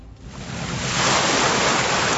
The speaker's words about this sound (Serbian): Morski talasi blago zapljuskuju usku šljunkovitu plažu između marine i luke u Doveru.